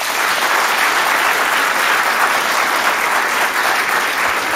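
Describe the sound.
Studio audience applause at a radio studio event for a book premiere, a dense, even wash of clapping that stays loud and steady throughout, with no voices.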